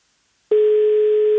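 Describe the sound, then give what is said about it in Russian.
Telephone ringing tone heard while waiting for an answer: after a brief silence, a loud, steady electronic tone starts abruptly and holds at one pitch without a break to the end. “8 гудков. Сколько же можно ждать? Вот мы 8 гудков дали и уже хотели класть трубку”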